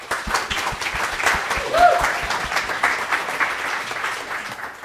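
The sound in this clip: A church audience claps to welcome a woman coming up to share her testimony, a lively, sustained round of many hands clapping with individual claps standing out and a slight swell midway.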